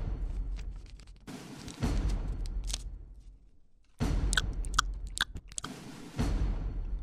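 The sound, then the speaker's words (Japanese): Gum chewing by a person eating gum during a job interview: many moist, crunchy chews in uneven bursts, louder stretches separated by a quieter pause, with no voices. “統合作戦本部長の息子はおもむろにポケットに手を突っ込み、中からガムを取り出した。そして包みを開け、食べ出したのだった。”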